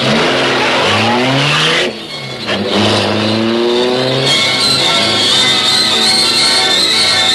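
A super-powered high-speed car engine revs hard, its pitch climbing in rising sweeps, dipping briefly partway through, then roaring on loudly at a higher, sustained pitch.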